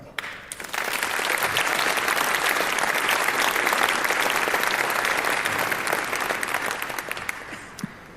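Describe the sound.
Audience applause greets a speaker coming onto the stage at a talk: dense, even clapping that swells quickly, stays full and steady for about eight seconds, then thins slightly at the end.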